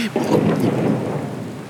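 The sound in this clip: Thunder rumbling through heavy, steady rain that hisses on surfaces, a loud and continuous dense wash of sound that never lets up and has no voices.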